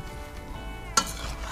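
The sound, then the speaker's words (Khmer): Ambarella, carrot, red onion and herbs being mixed together produce a soft, steady stirring rustle, broken by one sharp clink partway through. “រួចហើយយើងក៏ដាក់ម្កាក់ចូលដាក់ការ៉ុតចូលនឹងខ្ទឹមក្រហមហើយនឹងជីគ្រប់មុខរួចយើងលាយវាចូលគ្នា”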